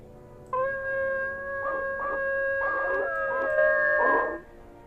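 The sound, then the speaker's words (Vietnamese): A pack of dogs howling together. Long, steady, held tones overlap with rougher bursts of yowling, all fairly faint and without any talking. “Một đàn chó quỷ đang tập trung một chỗ, rồi chúng nó chu lên liên hồi. Cái tiếng chu khiến cho người ta cảm giác đến đinh tai, nhức óc.”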